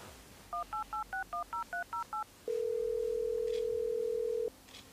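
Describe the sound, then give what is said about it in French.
Touch-tone telephone dialing to call a supplier: nine quick, evenly spaced keypad beeps in a brisk rhythm, then one loud, steady tone held for about two seconds before it cuts off. “je vais te le prouver en appelant un de mes fournisseurs. On est parti.”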